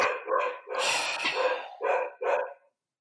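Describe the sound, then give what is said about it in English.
Several dogs bark in a loud, harsh run, with short yaps, then a long dense stretch of overlapping barking, then two brief separate barks before it falls silent. No one talks. “I assume y'all can hear the dogs barking.”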